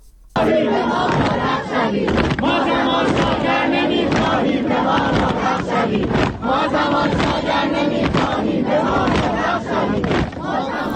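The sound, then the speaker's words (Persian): Amirkabir University students chant protest slogans as a large crowd, their loud, rhythmic massed voices rising almost at once from a brief quiet and carrying on without a break. “این صدای دانشجویان دانشگاه امیرکبیر هست.”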